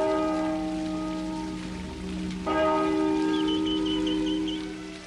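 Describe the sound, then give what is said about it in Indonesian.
A palace bell rings with a sustained, humming metallic tone. It is struck at the start and again midway, so it sounds twice, and each strike rings out and decays slowly. Faint high chirps flicker briefly near the end. “Kalau lonceng istana berbunyi dua kali, artinya akan ada pengumuman. Nah, kita coba dengar dulu. Ini loncengnya berbunyi berapa kali?”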